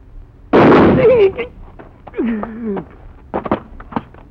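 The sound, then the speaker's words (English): A gunshot from a fast, left-handed gunman facing a marshal chasing a killer. It is a single loud, sharp blast with a short ringing tail, followed by men talking. “It is impossible that someone could shoot faster than Senor Drew. And with your left hand.”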